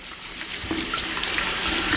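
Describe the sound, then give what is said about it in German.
Tap water runs steadily into a sink over a doll's head, wetting its hair before a shampoo wash. It is a continuous, even rush of splashing with no breaks and no talk. “Der Puppenkopf liegt jetzt im Waschbecken, wurde jetzt kurz eingenässt.”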